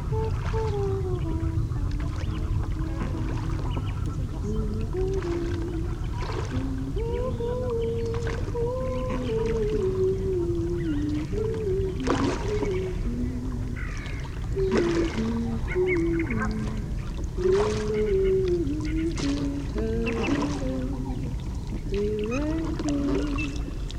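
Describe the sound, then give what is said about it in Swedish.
Rowing a boat on Lake Mälaren at sunset: repeated creaking, moaning tones from the oars rise and fall over a steady low wash of water, continuing without a break. “Men fram tills dess kör vi en encore på den berömda rodden på Mälaren. Ja, precis. Låt oss ro iväg i solnedgången.”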